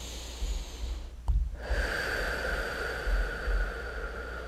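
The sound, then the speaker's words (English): A group of people take deep breaths at a prayer gathering: a sharp, snorting inhale, then a long, steady, breathy hiss that holds to the end. “placing your hands over your heart, taking a couple deep breaths. Once more.”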